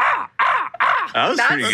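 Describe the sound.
A person's voice imitates a crow's cawing: several harsh, nasal caws in quick succession, loud and raspy, with short breaks between them.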